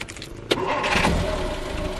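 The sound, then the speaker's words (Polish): A 1938 Fiat car starting off in a vintage rally: a sharp knock near the start, then a steady, full engine drone that holds at an even loudness to the end. “Jednym z najstarszych samochodów rajdu jest Fiat z 1938 roku.”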